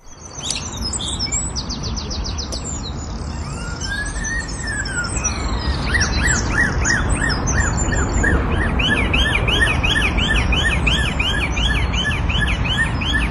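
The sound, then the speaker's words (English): A bird in Bicester, England, mimics local police car sirens, repeating wavering, rising-and-falling siren-like whoops over and over among rapid high chirps and tweets. The calls stay steady and fairly loud throughout. “That's the sound of a bird in Bicester, England, whose impression of local police car sirens was reportedly so accurate”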